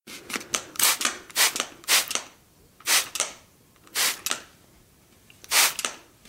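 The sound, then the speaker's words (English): Spray bottle spraying: many short, sharp bursts of airy hiss, loud against a quiet background, coming in irregular clusters with brief pauses between groups. “The sound you just heard was a recording of a spray bottle.”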